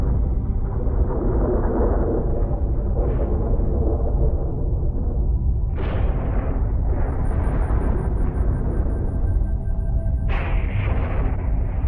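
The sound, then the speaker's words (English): Deep, unbroken rumbling roar standing for planetesimals and icy bodies bombarding the early, dry Earth. A few sharper booming bursts rise out of the loud, steady thunder-like drone. “Countless planetesimals and icy planets bombarded the early dry Earth.”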